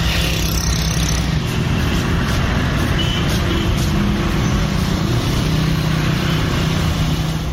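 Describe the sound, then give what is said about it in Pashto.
Steady road traffic fills a central city square where four roads meet in Kandahar. Cars and heavier vehicles blend into one continuous, loud rumble of engines and tyres, with no pauses and no voices. “د کندهار ښار مرکز شهیدانو څلور لارې چې څلور خواوته غزیدلې لارې او پیادهونه شنې سیمې او ونینه لري چې د تیریدونکو موټرو له امله ډېری وخت دوړې رامنځته”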